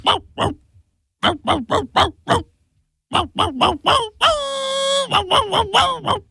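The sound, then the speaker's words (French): A person imitates a dog as a clue in a radio song-guessing game, with many short, loud bark-like yelps in quick groups and one drawn-out, wavering howl near the end. “C'est un chien.”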